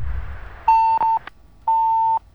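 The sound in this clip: A phone line disconnection tone cuts in during a call-in: steady mid-pitched electronic beeps, two short ones back to back, then a pause and a longer third beep, over faint background hiss.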